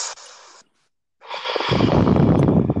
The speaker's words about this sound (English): please don't breathe into the actual microphone because it's hurting my ear.